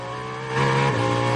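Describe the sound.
Race cars accelerating, among them the 009 Aston Martin: a loud, steady engine drone with a harmonic whine that swells louder partway through and stays strong.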